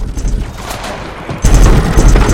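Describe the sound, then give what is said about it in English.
Gunfire exchanged with insurgents firing from a ridgeline makes a dense, rattling wash of rapid shots and booms that grows sharply louder partway through and stays heavy to the end. “Insurgents fire from a ridgeline. Okur, Chutsky, and Burton trade fire with the enemy.”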